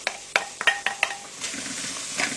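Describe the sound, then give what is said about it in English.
Onions frying in an oil-free, non-stick-free pan, starting with several sharp clinks of a utensil against the pan, then a soft, steady sizzle. “Now we add the onions. That's the onions going in.”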